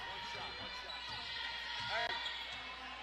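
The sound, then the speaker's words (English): A basketball is dribbled just inside the half-court line during a game, its steady rhythmic bounces continuing under talking voices. “Gilbert dribbling just inside the half-court line as Mount Holmes going to try to hold for the last shot of the period. 15 seconds left. Gilbert still dribbling.”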